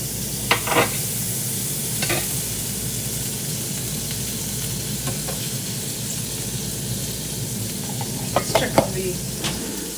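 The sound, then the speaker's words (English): Eggs fry in an egg ring in a pan, giving a steady sizzling hiss. A few sharp clinks and scrapes of utensils cut in over it, and no one speaks. “so the egg ring looks good. Everything's cooking. Everything seems to be looking good. I'm not burning anything, which was always a concern.”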